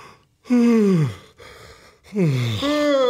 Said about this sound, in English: I literally just yawned.